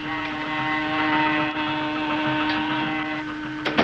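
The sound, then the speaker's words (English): Motors aboard a ship run as a steady, even mechanical drone with a strong humming tone that holds throughout, ending in a couple of brief clicks, with no voices. “There goes the motors and the saw.”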